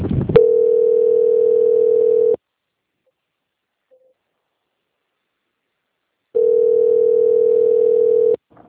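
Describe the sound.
A telephone line tone plays while a call is being transferred: two steady, level tones of about two seconds each, separated by roughly four seconds of silence.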